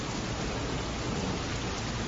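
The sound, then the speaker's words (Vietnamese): Heavy rain pours steadily as a dense, continuous, loud hiss, with no breaks and no voices. “Trận mưa này vẫn còn rất to.”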